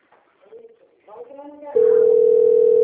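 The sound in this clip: A telephone call tone sounds during an outgoing call: after a couple of seconds of talk, a loud, steady, continuous mid-pitched tone begins and holds unbroken to the end.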